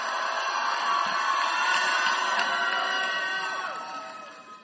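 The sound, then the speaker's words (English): A church audience in a hall applauds and cheers, a dense and loud crowd roar that holds steady and then eases off toward the end. “Why don't you put your hands together?”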